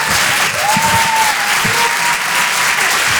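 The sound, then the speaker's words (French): Applause from a comedy club audience at a live show in Paris. Dense, steady clapping fills the whole clip at an even, loud level. “Faites du bruit s'il vous plaît pour Certes Mathurin.”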